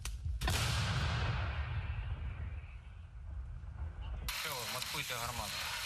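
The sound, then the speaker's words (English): A Paladin 155 mm howitzer, crewed by Ukrainian soldiers, fires one heavy blast that rumbles away in a long decay before a voice starts speaking. “He commands a crew that operates Paladin, 155 millimeter howitzers.”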